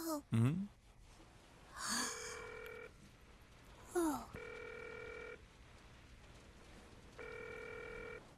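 Ringback tone of an outgoing telephone call: three steady, buzzing tones of about a second each, evenly spaced, with short vocal sounds between them.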